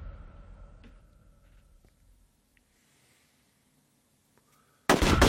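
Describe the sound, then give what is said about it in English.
Grenade and molotov blasts in a shooter video game. A deep explosion rumble fades over the first two seconds, faint clicks follow in near quiet, then a sudden loud burst erupts at the end. “I forgot about the fucking death from above strat that just happens once again. Lock and load. It's fucking just coordinated nades and mollies.”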